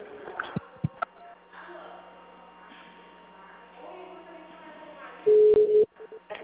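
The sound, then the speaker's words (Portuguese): A telephone ring tone sounds on a line while a call is transferred: one steady, mid-pitched beep near the end, after faint line hum and a few brief voice sounds. “Momento que eu vou transferir a ligação pro senhor lá.”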